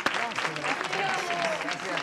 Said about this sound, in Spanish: Bravo, por favor, aplauso. Bravo, gracias.